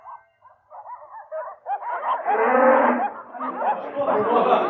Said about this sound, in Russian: Замычали коровы, заблеяли овечки, селяне выгоняли живёлу на пашу.